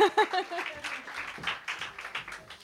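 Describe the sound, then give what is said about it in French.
Scattered applause from an audience at an evening event at the Jean Verdier community centre, soft, uneven clapping that follows a brief voice at the start. “on peut applaudir Sarah Pep qui est l'initiative de cette soirée.”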